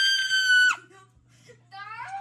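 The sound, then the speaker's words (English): A child lets out a loud, piercing scream that holds steady and then cuts off. After a short pause, a second, higher, wavering vocal outburst from the child follows. “sorry. I did not mean to scream.”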